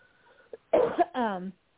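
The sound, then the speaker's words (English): A single short cough from someone who has been coughing, a rough burst followed by a brief voiced tail, framed by quiet pauses. “No, excuse me, I've been coughing.”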